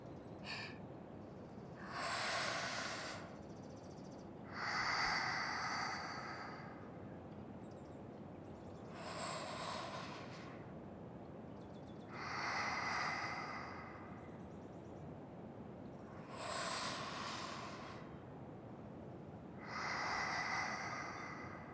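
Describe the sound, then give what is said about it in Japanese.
Slow, deep breathing during forest bathing: unhurried, soft breaths with six swells of air, forming about three inhale-exhale cycles over a faint, steady hiss. “さあマスターも、よかったらトラコと一緒に深呼吸。”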